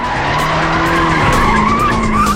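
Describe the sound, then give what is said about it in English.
Car tires screech loudly as the vehicle skids and spins to a stop, a continuous harsh squeal with several whining tones that waver in pitch, sustained without a break from start to finish. “The Gadgetmobile spins to a stop.”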